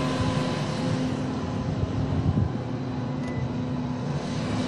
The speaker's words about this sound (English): Here's the shredding truck.